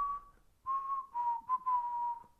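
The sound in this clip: A person whistling a tune: a few quiet, pure-toned held notes with slight pitch shifts between phrases, separated by brief gaps, with no other sounds.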